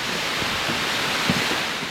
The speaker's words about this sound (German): Ein Wasserfall unterhalb eines Klosters, eines sehr berühmten Klosters.